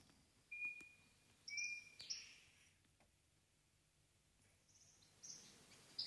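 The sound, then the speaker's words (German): A few birds chirp and whistle in short, thin, high notes, scattered faintly with quiet gaps between them. “Ich hoffe, das ist zu hören, ein paar Vögel. Das Rauschen eines Baches.”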